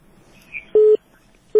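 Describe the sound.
Telephone tones sound as a listener's call connects on a phone-in line: two short, steady, mid-pitched electronic beeps of equal length, evenly spaced, over a faint background hum.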